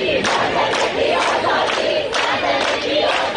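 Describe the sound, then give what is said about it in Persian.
Protesters in Ekbatan, Tehran, chant slogans together, with loud shouted phrases repeating in a steady rhythm from a large crowd. “5 مهر، خیابان ستارخان. مردمی که در اکباتان شعار می دهند”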